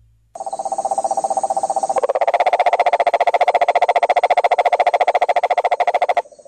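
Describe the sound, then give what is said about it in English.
A toxic cane toad calls with a long, steady, rapidly pulsed trill. The mechanical buzzing runs about six seconds without a break. It is loud, heard alone, and grows fuller and slightly louder partway through. “No, your radio is not broken. That is the sound of a toxic cane toad.”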